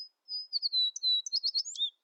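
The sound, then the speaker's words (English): An American sparrow sings a high, thin song alone: a long clear whistle followed by a rapid run of short chirping and trilled notes, ending in a brief downward slur. “Though American sparrows are common in North America, the populations have steeply declined since the 1970s.”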